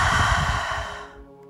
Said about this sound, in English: And exhale through the mouth.